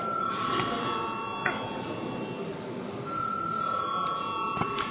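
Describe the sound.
Electronic session bell rings in the Latvian parliament, a high steady tone that sounds almost the whole time with a short break midway, over a low murmur of voices.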